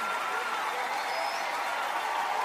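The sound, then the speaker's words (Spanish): Loud, continuous applause from a church audience praising God during worship, a dense and unbroken wash of clapping with voices mixed in. “Denle ese aplauso fuerte al Rey de Reyes y Señor de Señores. Déselo fuerte”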